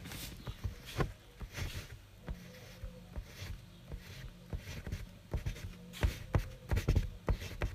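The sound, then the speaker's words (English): Pen or pencil scratching across paper as a word is written by hand, a run of quick, dry strokes and taps in an irregular rhythm with brief pauses between letters. “Please write down Olocanthal, so I will write it right.”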